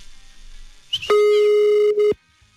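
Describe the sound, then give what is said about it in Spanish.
A telephone ringback tone sounds while a call is being dialed. A brief chirp comes first, then one loud, steady, buzzing ring at a fixed pitch that lasts about a second before it stops. “Ahí está marcando ya.”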